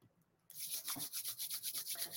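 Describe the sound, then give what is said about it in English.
Palms rub briskly together during a guided group healing meditation, starting after a short quiet moment as a steady run of many soft, even, hissing strokes. “Okay, rubbing our hands together like this.”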